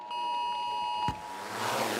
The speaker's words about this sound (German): Diesen Warnton haben Sie heute vielleicht gehört?